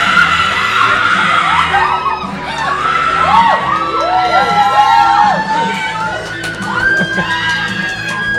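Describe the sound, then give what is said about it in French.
A celebrating crowd at the Lion d'Or screams and cheers as group members hug after hearing good news. Loud, sustained high-pitched shrieks, whoops and overlapping excited voices continue throughout, dipping briefly before surging again. “alors ça crie, on a juste en dessous de nous les membres de le Belladone qui viennent d'apprendre et de se faire des câlins et viennent d'apprendre qu'ils font partie d'un comité. Voilà, ça sonne comme ça, les gens.”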